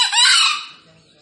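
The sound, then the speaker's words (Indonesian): A wild green junglefowl crows once, a loud, harsh, hoarse call that holds briefly and then trails off into near quiet. “saling saut-sautan dengan ayam hutan yang lain”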